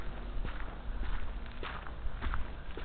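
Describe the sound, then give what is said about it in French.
Footsteps walking along a road in an Estonian village, a steady run of soft, regular steps over a low, continuous background with no talk. “là on marche en fait, on va aller acheter quelques trucs au supermarché”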